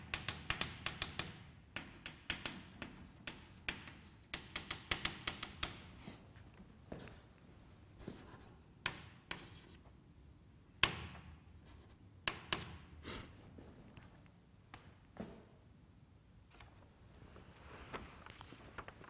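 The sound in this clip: Marker or chalk strokes scratch and tap on a board as a conformal diagram with its singularities is drawn: many sharp ticks and short scrapes in irregular bursts, fairly faint, with no talk.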